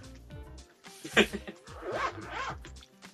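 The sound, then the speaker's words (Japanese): A clothing zipper is pulled closed with a few quiet, rasping, scratchy pulls over a faint background, the strongest one early and the rest following in a quick, uneven run. “誰やジッパー閉めてるやつは”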